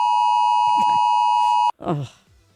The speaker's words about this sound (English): that was that 2 o'clock alarm